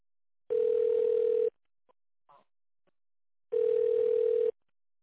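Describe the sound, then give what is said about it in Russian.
Two telephone ringback tones sound while a call is transferred to a secretary. Each steady mid-pitched tone lasts about a second, with a long quiet gap between them that holds only a few faint small noises. “Сейчас я соединю с секретарем.”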